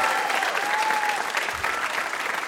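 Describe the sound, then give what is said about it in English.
An audience applauds a VIP guest at a live puzzle show, with dense, even clapping that stays loud from start to finish. “How about a hand for our VIP, Adam Rapoport?”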